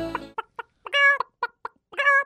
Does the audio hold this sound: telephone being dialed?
no

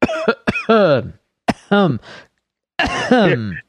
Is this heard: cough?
yes

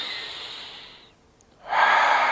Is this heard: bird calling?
no

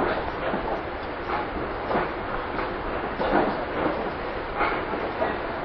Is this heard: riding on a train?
yes

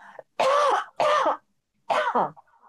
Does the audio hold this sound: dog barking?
no

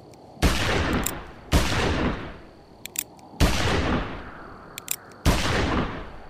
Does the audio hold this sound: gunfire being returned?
yes

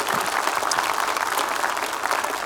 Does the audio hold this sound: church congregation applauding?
yes

